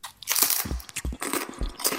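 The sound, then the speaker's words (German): A big crunchy bite of food, followed by a few loud, sharp crunching chews with crackling textures and short pauses between them. No voices are heard. “Boah, das war aber ein großer Bissen.”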